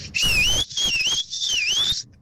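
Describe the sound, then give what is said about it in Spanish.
A person gives a family's signature whistle, taught by a father to call his children home: three shrill, sustained phrases that dip and rise in pitch, over a low background rumble. “Fíjate que el chiflido que nos inculcó mi papá”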